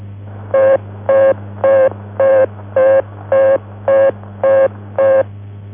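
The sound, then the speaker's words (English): An American telephone engaged tone sounds as nine evenly spaced beeps of steady pitch, each short with equal gaps between, over a constant low hum and with no voices. “If the number you have dialed is engaged, the American tone will sound like this.”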